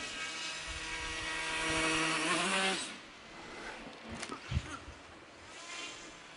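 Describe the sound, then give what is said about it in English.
Buzzing whine of a small flying aircraft during a live demonstration. A steady harmonic drone holds, then cuts off abruptly and gives way to a noisy rumble with a few soft knocks. “The idea is for the aircraft to recover no matter what state it finds itself in.”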